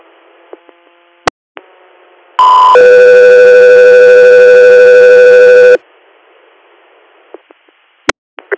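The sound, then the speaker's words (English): Dispatch alert tones for an air medical crew: a brief tone steps straight into one long, steady tone lasting about three seconds, loud over faint radio hiss and scattered clicks. “stand by for tones.”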